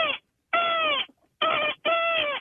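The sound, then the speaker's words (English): A person imitates a seagull screech in a deep, bassy voice, giving four loud, harsh drawn-out cries separated by short pauses, the first cut off at the start. “give us a little bit of your seagull screech, please.”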